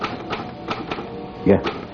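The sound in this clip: Keystrokes clack from an old typewriter whose letter T sits out of line and whose A typeface is damaged, a few sharp separate strikes at an uneven pace, with one louder and heavier strike near the end.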